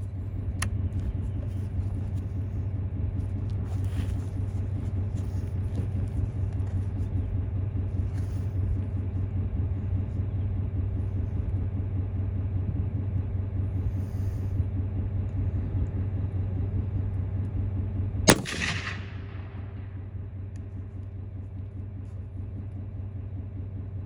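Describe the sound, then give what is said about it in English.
A single sharp rifle shot, the first round fired while zeroing a scope at 100 yards, stands out as one loud crack over a steady low rumble that continues throughout. “So I'm gonna get this first one in, see where it is. Hopefully we don't need very much adjusting. I'm tired of spending money on ammo already. Here we go, round number one.”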